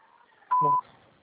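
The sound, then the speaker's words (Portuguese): A voicemail beep sounds once, a clear steady electronic tone lasting about a third of a second, alone against faint background noise. “Sua chamada está sendo encaminhada para a caixa de mensagem. Após o sinal, grave sua mensagem.”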